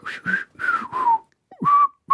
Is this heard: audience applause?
no